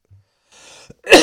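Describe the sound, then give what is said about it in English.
A single short, harsh cough from a person with a cough that has lingered for about a month, preceded by a quick breath and bursting out loud and forceful. “I got this cough I cannot get rid of.”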